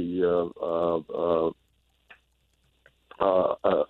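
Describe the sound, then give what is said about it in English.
A human voice imitates the killdeer, a shorebird of lakeshores, with three drawn-out harmonic calls, a pause, then two shorter calls. “killdeer, killdeer, killdeer. And you can hear them as they fly over as well.”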